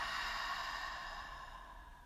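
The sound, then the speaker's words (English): A slow, steady breath during a guided breathing exercise: soft, airy breath noise that holds on alone and then fades gently toward the end. “Breathe in and out.”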